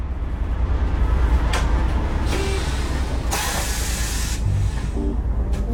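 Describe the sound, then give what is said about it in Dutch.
A bus pulls up and stops in Vlaardingen as passengers get off. A steady low engine rumble runs throughout, broken by a few loud bursts of hissing air, the longest near the end, with faint clanks in between. “We stappen de bus uit in Vlaardingen.”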